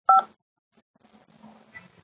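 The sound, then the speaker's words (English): A single loud telephone keypad DTMF tone, pressed to answer an automated prison call menu, sounds briefly at the start and then gives way to near silence with faint low murmuring. “Decline the call or to accept, dial 5 now.”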